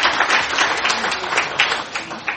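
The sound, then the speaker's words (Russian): Members of a legislative assembly applaud at the close of a session marking National Unity Day, a brisk patter of many hands clapping with uneven bursts rising and falling in loudness. “Давайте поздравим друг друга и похлопаем.”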